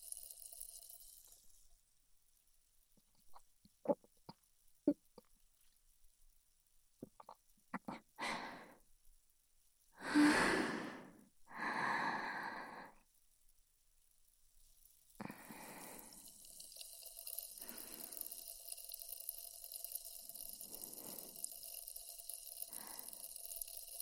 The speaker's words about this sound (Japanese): 喉乾いちゃった。ちょっと飲むね。